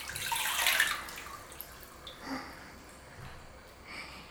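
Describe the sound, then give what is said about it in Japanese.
Hot water being scooped up by hand during a facial massage routine: a soft burst of splashing and sloshing near the start, then faint trickles and drips fading into quiet. “まずはたっぷりお湯をすくって、”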